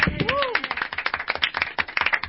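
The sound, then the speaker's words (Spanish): Hand clapping by people in a radio studio: many quick, sharp claps in an uneven rhythm, with a voice heard briefly at the start. “¿qué aplaudamos? Aplaudamos.”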